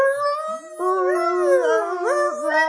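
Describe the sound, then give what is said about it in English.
A human voice imitates a humpback whale call with sustained moaning tones that bend and slide up and down in pitch, continuous and wavering for nearly three seconds. “A humpback whale is an animal that makes sounds like this.”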